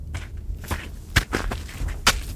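Footsteps of someone walking outside: a series of uneven steps, most soft and a couple landing harder and sharper, with no talking.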